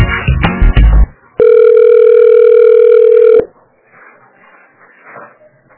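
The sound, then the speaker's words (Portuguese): A steady telephone ringing tone sounds as a call is transferred: one long, unbroken electronic tone of about two seconds. A short stretch of talk comes before it, and faint voices follow after. “Oi, só um minutinho que eu vou transferir a ligação, tá?”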